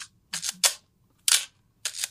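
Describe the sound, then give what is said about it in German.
Camera shutter clicks, several sharp, crisp snaps in uneven bursts, some in quick pairs, separated by short silences. “Denn dieses schöne Geräusch der Kamera, wie wir es heute gewohnt sind, das war damals äußerst kompliziert.”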